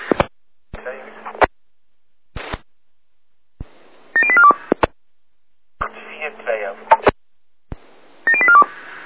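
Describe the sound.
Rapid sequences of telephone dialing tones, two quick runs of stepped beeps, heard over a radio channel between short bursts of transmission noise and clicks.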